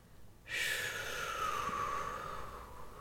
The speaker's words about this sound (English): Okay, start by exhaling all the air.